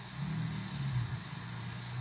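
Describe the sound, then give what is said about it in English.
Street traffic comes through thin windows as a steady, low engine rumble with a constant wash of noise, moderately faint and without clear breaks. “And I apologize for any background noise that you hear. My windows in my room are super thin, so you can kind of hear everything going on the street”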